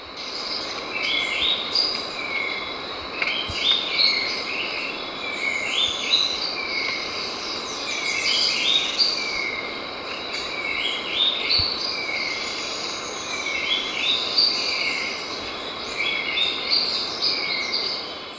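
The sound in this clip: A gray-throated leaftosser and a slaty-capped shrike-vireo call with repeated short, high chirps and whistled notes. The calls come in loose bursts over a constant dense insect drone, with no voices.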